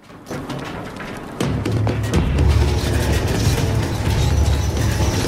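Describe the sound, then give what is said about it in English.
An iron bridge mechanism lowers over a river: a few scattered clanks, then a heavy, steady grinding rumble that turns louder and fuller at about one and a half seconds and holds to the end. “Riley holds the zombie down as the bridge lowers above him. The iron mechanism decapitates the zombie, whose head falls into the river below.”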